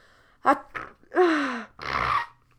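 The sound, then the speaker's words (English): A single person sneezes. A couple of short, sharp intakes of breath and a falling voiced cry lead into a broad, breathy burst. The sounds are fairly faint, with no talk. “sorry guys, I hope I don't have a weird sneeze”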